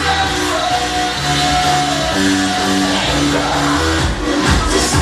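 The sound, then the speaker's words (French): Dozens of people seated at the terrace of the Old Folk, a popular bar in Sinkor, fill the air with dense crowd chatter at night, with shouts and raised voices running continuously. “21h, des dizaines de personnes attablées à la terrasse du Old Folk, un bar populaire du quartier Sinkor.”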